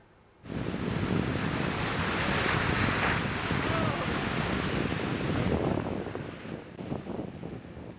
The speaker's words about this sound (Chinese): 受玛丽影响，美国加州纽波特海滩5号出现巨大涌浪，吸引了不少游泳及冲浪爱好者前去挑战。